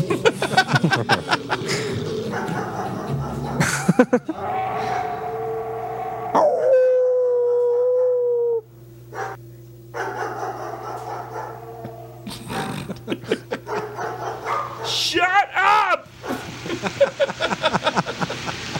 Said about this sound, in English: I love when people scream at a barking dog, and all it does is make them bark more.